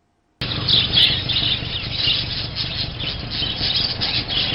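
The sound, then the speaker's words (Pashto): A dense chorus of many caged birds squawking and chirping at bird shops in a market in Jalalabad, beginning abruptly after a moment of silence and then continuing loud and unbroken. “د مرغیو دا شور د جلال آباد خار دنغاړي ته سیرمه د مالګي لوکوسي اوریدل کیږي”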